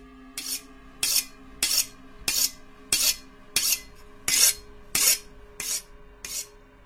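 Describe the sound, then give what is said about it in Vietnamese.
Rasping strokes of a knife being sharpened on a whetstone, ten even, gritty scrapes in a steady back-and-forth rhythm, each a short hiss with silence between, heard alone. “Hắn bắt đầu mài con dao cho thật sắc.”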